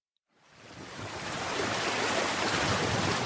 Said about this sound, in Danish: Det er lyden af regnvand i Storåen midt i byen, som er simpelthen gået over sine bredder på grund af vandmasserne.